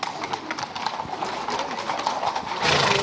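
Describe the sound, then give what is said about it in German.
Horses of a mounted band clop their hooves as they set off toward the centre of Beromünster for a gathering of riders. A steady, dense clip-clop runs throughout and grows slightly louder near the end. “Und jetzt geht's los, mindestens für die Ross von der Reitermusik Gunzwil. Die machen sich auf jetzt ins Zentrum des Flecken Beromünster.”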